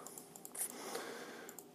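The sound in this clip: Faint clicking of a computer mouse, a run of small, sharp, dry ticks at an uneven pace, heard alone against quiet background hiss.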